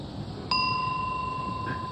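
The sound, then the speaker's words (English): A meditation bell struck once at the start of a practice, giving a bright, clean ring whose pure tone holds steady and sustains to the end over faint background hiss. “I'm going to ring this bell first”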